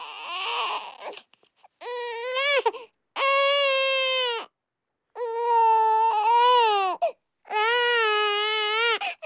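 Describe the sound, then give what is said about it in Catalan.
An infant crying: a short fussy start, then four long, loud wailing cries with rich harmonic tone. Brief gasping pauses separate the cries, and no one talks. “Tranquils, que no plora cap nadó, és un efecte que tenim aquí a la ràdio”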